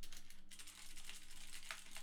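Keys clatter on a computer keyboard in a quick, uneven run of many soft clicks, faint and steady, with no voices.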